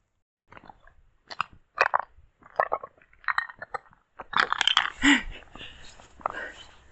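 Brittle rock crunching as it breaks apart and slides down a slope: a few sharp, scattered cracks at first, then a loud, continuous gritty rattle and crunch of tumbling fragments.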